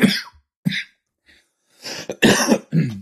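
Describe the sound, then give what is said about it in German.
A morning smoker's cough: several harsh, raspy coughing bursts, separated by short silent gaps, with a throat-clearing rasp among them. The last bursts run loudest and longest. “Oh, das war mein morgendlicher Raucherhusten, Entschuldigung.”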